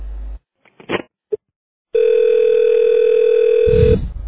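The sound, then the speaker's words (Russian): A telephone dial tone sounds after the other party hangs up on a call: a handset clunk and a few short clicks, then a steady, loud, unbroken single-pitch hum for about two seconds, ending in a brief rustle. “зачем вы трубку бросаете? Я к вам по-серьезному звоню, а вы трубку бросаете.”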